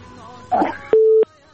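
A steady mid-pitched electronic tone on a radio call-in line after a call drops, lasting about a third of a second and preceded by a brief muffled burst.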